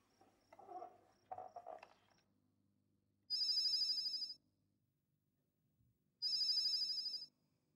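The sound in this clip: A telephone rings in two equal bursts of a bright, buzzing electronic trill, each about a second long and separated by a few seconds of near silence.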